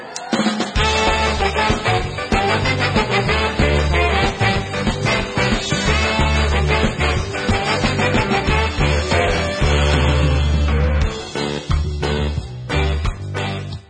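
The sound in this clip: Live band music from the opening of a song, loud and dense, with a steady driving beat and layered instruments playing continuously and dropping briefly near the end.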